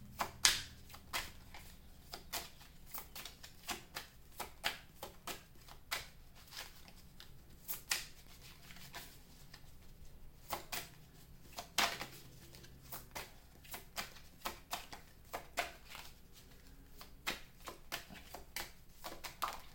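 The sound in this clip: Tarot cards are shuffled and drawn, with many soft, papery slaps and flicks in an irregular stream that stays quiet and continues without any talking.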